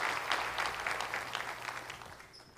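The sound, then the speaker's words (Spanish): A church audience applauds to welcome a pastor at a morning service. The clapping is lively and even, with many overlapping claps, and eases slightly toward the end. “Recibamos con un fuerte aplauso al pastor Josiah en esta mañana.”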